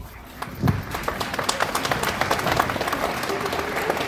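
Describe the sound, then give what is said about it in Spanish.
Applause breaks out from an audience at a public meeting about a new secondary school, rising after a quiet start into a steady, dense patter of many hands clapping that continues to the end. “el aplauso de ustedes refleja la buena noticia que es”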